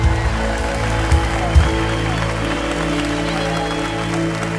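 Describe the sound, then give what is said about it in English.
A church audience applauding as a guest is welcomed to the stage, giving steady, continuous clapping that stays loud and dense throughout. “So at every campus, I want you to get up on your feet. We're going to give honor where honor's due and put your hands together”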